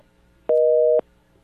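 A telephone busy signal sounds on a line after a caller has dropped off: one steady, mid-pitched two-tone beep lasting about half a second, loud and alone against faint line hiss.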